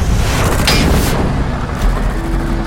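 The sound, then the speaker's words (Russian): A heavy, booming blast stands in for a gunshot in a wartime radio drama. It is loud, with a deep low rumble sustained throughout and brief, sharper bursts riding on top. “Огонь во входе! Выстрел!”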